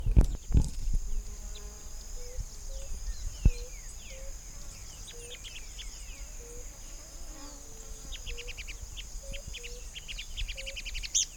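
Two Thalmias murina birds call in a long series of short, evenly spaced, mid-pitched notes. A steady high insect drone runs underneath, with a few sharp clicks near the start and a rapid burst of higher chirps toward the end.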